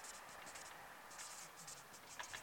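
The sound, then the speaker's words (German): Pen writing, scratching out a series of short, quick strokes in soft bursts, fairly faint, with no talk. “Ich schreibe mal HG für Heiligen Geist.”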